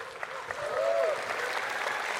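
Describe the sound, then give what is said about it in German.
Applause from an audience at a panel event, a steady wash of clapping that swells slightly and holds at a moderate level throughout, with no voices on top. “Vielen Dank. Applaus.”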